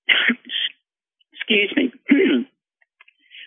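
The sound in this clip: Coughing and throat clearing from a man choking up mid-talk: two short rasping bursts, then two longer, harsher ones after a brief pause.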